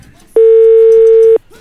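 Telephone ringing tone during a call: one loud, steady mid-pitched tone lasting about a second, starting and stopping abruptly over faint background noise.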